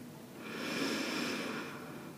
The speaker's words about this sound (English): And slowly exhale. Deep breath in.